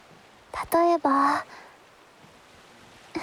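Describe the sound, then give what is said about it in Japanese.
Birds calling near a river used for rafting: two loud, harsh, honking calls in quick succession, each with a strong harmonic buzz, followed by quiet and a faint click at the end. “例えばそう、鈴代たちには鳥たちの鳴き声にしか聞こえない、これだって。”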